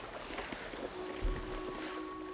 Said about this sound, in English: two triangular canvas sails catch the breeze, and the twin hulls slice through the water like fins.